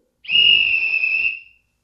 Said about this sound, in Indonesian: Bila kalian mendengar bunyi peluit satu kali dan panjang seperti ini,